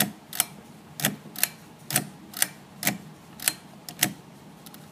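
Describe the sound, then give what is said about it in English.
A lamp switch clicking on and off, sharp dry clicks repeated at a fairly steady pace, about one every half second, each crisp and brief over a quiet background. “That was the sound of my lamp turning on and off.”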